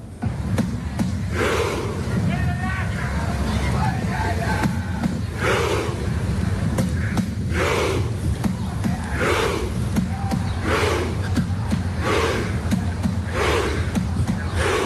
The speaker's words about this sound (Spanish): así suenan las calles aquí en Miami estos días.